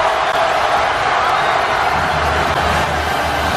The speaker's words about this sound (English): That is all courtesy of ESPN, and with the noise you hear, the Temple students storming the court.